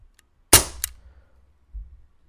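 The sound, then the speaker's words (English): A toy gun fires one sharp, very loud crack. A brief second snap and a fading ringing tail follow it, set against near silence. “Do you guys want to hear how loud the gun is? Please don't. It's so loud. Ready? 3, 2...”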